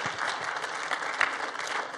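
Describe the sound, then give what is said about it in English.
Congregation clapping at a church service to welcome first-time visitors: a dense, steady round of applause lasting about two seconds, moderately loud, with no talk over it. “We want to welcome you, and we do that by honoring you. They already know. We clap for you.”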